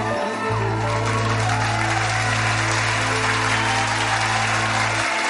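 Audience applause fills the whole clip as steady, dense clapping from many hands, with a low sustained hum running underneath and no voices standing out.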